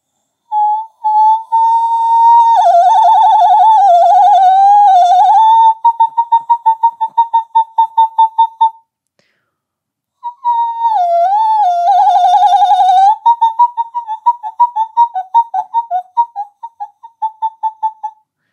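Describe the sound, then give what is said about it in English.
A human voice imitates a flock of cranes calling, in two loud phrases, each a long, wavering, whistle-like call followed by a run of short, rapid pulsed notes, with a gap of silence between the phrases. “So that's a crane flock sound.”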